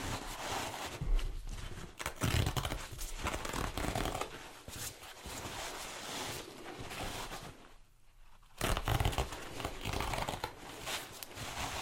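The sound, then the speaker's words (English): Paper towels crinkle and rustle as they are pulled and handled in a tattoo shop, a continuous dry crackling texture that stays fairly even, with one brief quieter gap before it resumes. “Going to get a couple of paper towels.”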